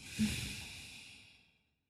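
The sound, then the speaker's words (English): A single soft breath through the nose during a guided breathing exercise: an airy hiss that swells quickly and fades away over about a second and a half, heard alone. “Let's do it again. Inhale through the nose. Exhale through the nose.”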